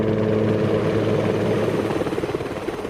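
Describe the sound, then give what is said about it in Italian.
British military helicopters evacuate wounded toward aircraft carriers, producing a steady, low engine and rotor drone with rhythmic blade thumping that becomes more distinct toward the end. “All'interno dell'impianto delle acque, gli elicotteri inglesi già evacuano i primi feriti verso le portaerei.”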